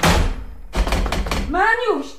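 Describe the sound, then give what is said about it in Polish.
A wardrobe's doors slam shut with a dull, heavy thunk, followed by a brief voice. “Kusy już zniknął, zatrzaskując za sobą drzwiczki szafy”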